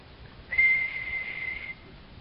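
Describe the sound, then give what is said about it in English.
A voice imitates a flute with one sustained high whistle, steady in pitch and held for just over a second, standing alone over faint background hiss. “And he pulls out his flute and he gives a whistle.”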